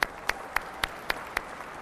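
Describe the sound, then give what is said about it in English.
Clapping from a church audience welcoming college students back: six sharp, evenly spaced claps in a steady rhythm, fairly faint over a quiet background. “Wow, isn't it great to have our college students back? Give a hand and welcome them back.”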